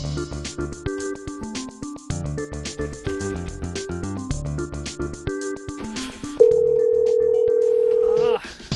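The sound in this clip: Telephone ringback tone while calling a hotel: one steady, loud two-second ring tone after several seconds of busy, music-like tonal sound, then a brief quieter moment at the end.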